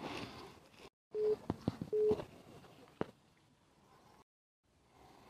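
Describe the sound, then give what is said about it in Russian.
Telephone call signal breaking into a conversation: two short electronic beeps at an even pitch, with a few sharp clicks and faint background noise between and after them. “прервался э, наш разговор звонком, мне тут поступил звонок”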